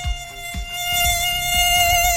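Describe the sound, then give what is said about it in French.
A tiger mosquito buzzing in flight, producing a thin, steady high-pitched whine that holds an even tone for a couple of seconds, faint but continuous and alone. “Il a interdit à tous les moustiques tigres de voler.”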